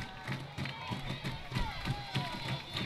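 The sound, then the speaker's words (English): Fans cheer at a softball stadium during a game, a steady roar of crowd noise with scattered shouts and voices running underneath. “As you can hear, the fans are getting after it here at the stadium.”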